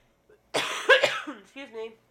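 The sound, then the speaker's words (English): A person coughs from allergies to blooming palm trees in South Florida: a harsh, choking burst of a few rough coughs, followed by a short, voiced throat-clearing sound. “Excuse me. The allergies are bad in South Florida right now. The palm trees are blooming. Makes me choke up a little.”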